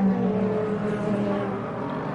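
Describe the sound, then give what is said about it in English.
A GTD Pro class race car heads back to the pits, its engine a steady, even drone with no sharp revving, easing slightly in level toward the end. “And Esterson now brings that car back to the pits.”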